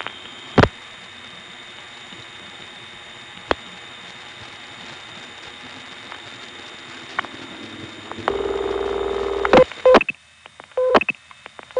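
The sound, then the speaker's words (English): Telephone reorder tone from Harrisonburg long distance equipment: sharp clicks over a faint line hiss, then a steady low tone, followed near the end by short, rapidly repeated beeps. “There's the reorder from the Harrisonburg Long Distance Equipment.”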